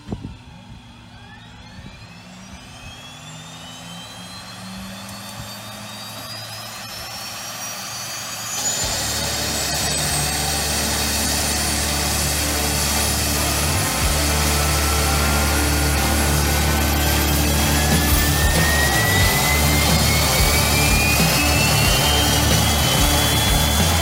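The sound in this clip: Aircraft engine spooling up: a high whine climbs steadily in pitch for about 24 seconds over a broad roar, which jumps in loudness around eight seconds in and then stays steady and strong.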